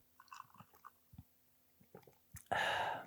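Someone drinking a cold Coke: a few soft, evenly spaced gulping swallows, then a loud sustained airy hiss at the end. No talking.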